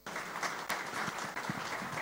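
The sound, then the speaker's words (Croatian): Audience applause greets two singers arriving for a live sevdah music programme: dense, steady clapping from a crowd that carries without pause from start to finish. “E pa dobro došle i jedna i druga, dočekane naravno pljeskom onih koji prate, evo ovaj Đerdan uživo.”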